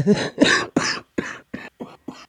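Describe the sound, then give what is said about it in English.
A sick person coughs seven times in a quick series of short, harsh, throat-clearing bursts. The first few are loud and the later ones grow fainter. “So I'm going to try not coughing into the podcast, but we'll see what I can do.”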